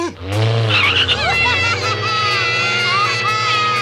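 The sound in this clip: A car drives and skids, with loud squealing tires over a steady engine roar. The sound runs continuously and strongly through the whole clip.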